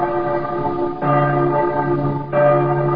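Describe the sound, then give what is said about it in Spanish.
Church bells ring in Quito, a few resonant strikes sounding about a second apart, each leaving rich, shimmering overtones that sustain and overlap. “cuando las campanas tañan”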